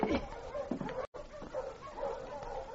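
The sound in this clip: A dog barks and yips a few times in short, uneven bursts at a fairly low level, broken by a brief moment of silence partway through.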